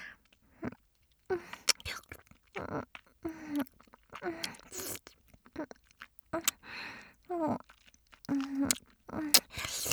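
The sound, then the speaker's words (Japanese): Wet mouth sounds of saliva being gathered: many irregular smacks, clicks and slurps in short bursts separated by quiet gaps, with a few brief voiced hums mixed in. “ちょっとだけ待ってくださいね。今唾溜めますから。”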